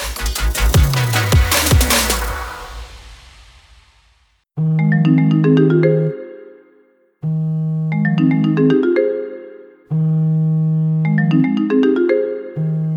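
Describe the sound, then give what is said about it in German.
An iPhone ringtone for an incoming call: a bright, ringing chime that decays at first, then the same short melodic phrase plays three times with brief pauses between. “Hallo? Ah, ihr seid es. Habt ihr mich auf meinem iPhone angerufen?”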